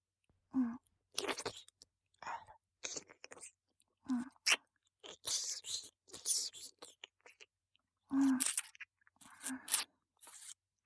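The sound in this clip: Crisp chewing and crunching of food, with many short, crackly bites and chews in separate bursts divided by brief silences, heard alone without talk.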